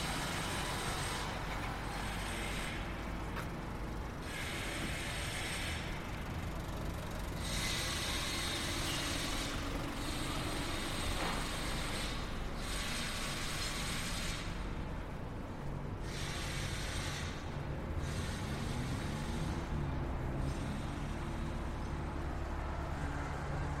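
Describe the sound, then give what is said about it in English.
Clanking, ratcheting machinery and a steady rumble resemble traffic, heard while walking between two noisy construction sites in Tokyo, one with nine cranes working. The mechanical din runs continuously and loud throughout, with no talking. “walk between two noisy construction sites”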